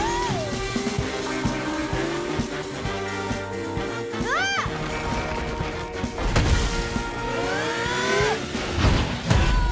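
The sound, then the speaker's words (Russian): A monster's spiked tail smashes down and sends stone fragments flying, heard as heavy crashing hits within a dense, loud soundtrack of rumbling and swelling effects, with the strongest impacts near the end. “Монстр ударяет шипастым хвостом.”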